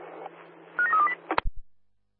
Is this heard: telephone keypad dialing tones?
yes